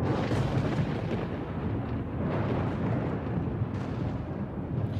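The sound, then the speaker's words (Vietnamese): Deep thunder rumbles without a break for a spell of five purple lightning bolts striking down. It stays loud and dense throughout, with a few swelling surges and no voices. “Chú lệnh ầm ầm từ trên tầng không, liên tục là 5 tia sét màu tím đánh thẳng xuống huyết nhi quỷ.”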